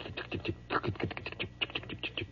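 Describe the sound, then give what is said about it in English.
A voice imitates railroad telegraph sounders, producing a quick, irregular run of many dry, clipped clicks that patter like rapid tapping at low volume. “And all along the walls in these little wooden things were the sounders. Have you ever heard these sounders going? They just go,”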